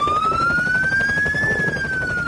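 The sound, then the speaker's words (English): A police car siren wails during a high-speed chase, one loud steady tone that slowly rises in pitch and then eases back down, heard alone without voices. “I'm getting pulled over by the police helicopter, and the police, the ground police, are right behind me.”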